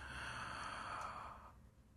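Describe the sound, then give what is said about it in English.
A faint, deep breath in, a slow airy inhalation lasting about a second and a half that fades out with no voice. “I like to take a few deep breaths to clear my head and set my intent on walking mindfully. So breathe in.”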